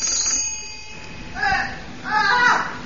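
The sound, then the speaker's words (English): A bell rings in a couple of short, bright, metallic bursts, each a rapid trill, with speech around it. “that bell. It sounded like...”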